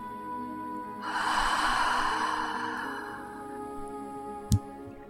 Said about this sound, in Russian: И снова глубокий вдох через нос. И глубокий выдох через рот.